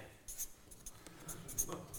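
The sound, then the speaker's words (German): Faint scratchy strokes of a pink pen writing on a drawing, a few short bursts of pen noise under a quiet voice. “Also schreibe ich mal hier rein, in diesen tiefen Graben.”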